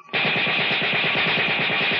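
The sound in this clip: An aircraft's machine gun fires in a radio drama, a loud, rapid, evenly spaced rattle that opens abruptly and continues steadily without a break for about two seconds.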